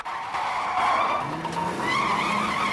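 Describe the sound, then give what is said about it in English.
A car brakes sharply, its tyres skidding in a loud, sustained screech over the engine noise, with the squeal wavering through the whole stretch. “They're about to cross a road when a car brakes sharply.”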